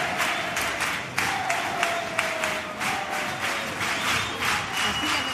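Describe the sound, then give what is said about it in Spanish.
Ovation in Cádiz's Gran Teatro Falla as a carnival comparsa takes the stage for the semifinals, with loud, dense massed clapping that stays sustained and even throughout. “Bueno, con esta ovación recibe el Gran Teatro Falla a la comparsa de David Carapapa, David Márquez, Mateos, La Resistencia”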